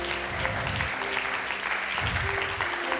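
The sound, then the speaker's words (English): Audience applause for a guest being welcomed at a church service, a steady sustained clapping from many hands that holds at a fairly even level from start to finish. “Let's give him a hand one more time.”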